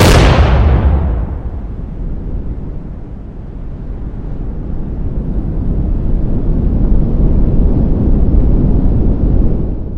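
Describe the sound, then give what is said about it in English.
A hydrogen bomb explosion opens with a sudden, loud, deep boom that spreads into a heavy rumble. The blast then gives way to a long, steady, low roar of rushing wind from the pressure wave, which stays strong to the end. “I have a recording of a hydrogen bomb from when sound arrived after the silent flash, followed by the wind from the pressure wave.”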